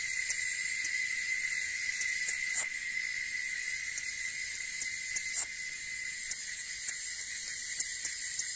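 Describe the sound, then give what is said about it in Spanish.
A nighttime chorus of grasshoppers, a steady, dense, high-pitched buzzing trill that runs unbroken and faint throughout. “Un murciélago de labio verrugoso viene a acallar el coro de los saltamontes.”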